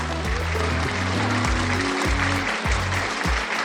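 Audience applause welcoming a guest bassist, a dense, continuous wash of clapping mixed with music carrying deep, repeated bass notes.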